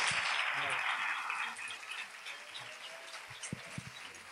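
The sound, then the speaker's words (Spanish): Applause at the 2013 carnival proclamation in Archidona, a dense burst of clapping that fades after a moment into scattered claps and murmuring voices. “Un fuerte aplauso para ella.”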